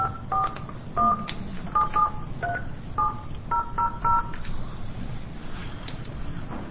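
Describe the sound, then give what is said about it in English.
Touch-tone keypad beeps as a phone dials out to reach a witness during a legislative committee hearing: many short, clear tones, some in quick pairs, others spaced apart, with faint background noise. “Do I have to dial something to dial out? Nine. One.”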